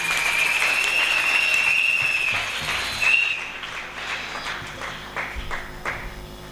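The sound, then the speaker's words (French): Congregation applauding in church during a New Year worship service as the pastor comes forward: dense, steady clapping for about three seconds, then thinning and tapering off. “Pendant qu'il s'approche, nous acclamons le Seigneur.”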